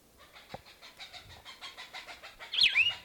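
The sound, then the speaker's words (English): An excited Cooper's hawk calling, probably near its nest: a rapid series of faint, harsh repeated notes over a low background rumble. “Cooper's Hawk, very excited, must be near a nest.”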